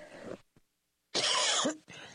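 A cough clearing a tickle in the throat: one loud, rasping burst lasting about half a second, with quieter breathy sounds before and after it.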